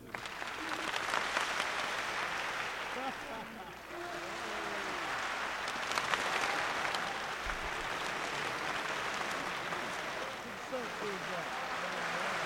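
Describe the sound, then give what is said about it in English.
An audience claps in a wave that moves across the room. Dense, continuous clapping holds steady, dips briefly partway through, then swells back to full strength. “you start clapping, and I move my hand across like this, and as it goes this way, you guys stop, so the sound moves around the room”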